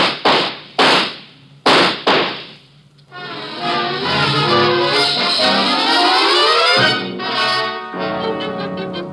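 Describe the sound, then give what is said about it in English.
Gunshots from a shootout in a radio drama: a quick series of sharp, loud cracks with short gaps between them. A sustained, swelling tonal passage then takes over. “He has a gun. Get down. Shoot him, Robert.”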